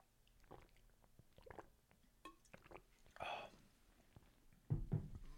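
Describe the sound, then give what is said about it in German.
A short sip of a drink comes through as faint, brief wet mouth sounds and soft smacks, very quiet overall, with a slightly louder burst near the end. “Kurzen Schluck trinken.”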